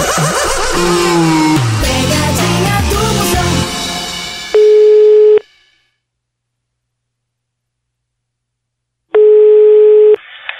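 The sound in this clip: Telephone ringback tones while a call is placed: two steady, buzzy tone bursts about a second long, separated by a few seconds of silence, following fading music.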